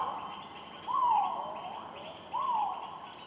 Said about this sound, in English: As the afternoon wears on, insects work in harmony, timing their calls to fall between the notes of others.